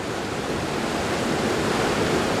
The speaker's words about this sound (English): There's been a lot of rain, and the river is already swollen, punctuated with giant boulders.